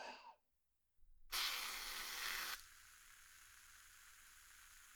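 Skincare foam fizzes after being pumped into a hand. A loud burst of hissing spray lasts about a second, then gives way to a steady, faint fizzing crackle that continues alone.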